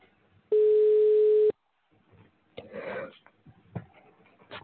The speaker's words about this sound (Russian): Повторный дозвон. Начинаем звонить абоненту. Ожидайте соединения.